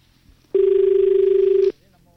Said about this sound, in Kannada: ಇನ್ನೊಂದು ಕರೆ ಇದೆ.